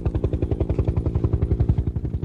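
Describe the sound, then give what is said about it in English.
A Bell twin-engine helicopter passes overhead as it returns to land on the Dún Briste sea stack. Its rotor makes a loud, steady, rapid thudding beat, with an engine whine above it. “It's coming right over us now, this Bell twin-engine helicopter, and hopefully we can get it on board again”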